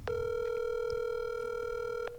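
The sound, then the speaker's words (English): Ringback tone of an outgoing telephone call: a single steady electronic buzz lasting about two seconds before it cuts off, with no voices. “This is an emergency, so let's see if he picks up here. Oh, it's ringing.”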